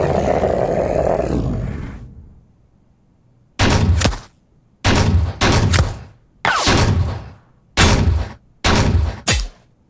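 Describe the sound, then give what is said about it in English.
Gunfire sound effect with bullets impacting, several loud, abrupt bursts of rapid fire separated by short silences, following a rushing roar that fades out at the start. “a lot of the bullets impact around you and miss Faye, but one hits you, knocking you off your feet.”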